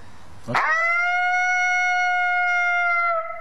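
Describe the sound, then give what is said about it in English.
A single long, lonesome howl that sets in sharply and then holds one steady, flat pitch for about three seconds. It is loud and rich in overtones, then stops abruptly. “Maybe two of those or three of those like that. Nice and loud, crisp. And then I'll wait for a response. And sometimes I'll hear them responding in a challenge, or they'll just do another lonesome howl.”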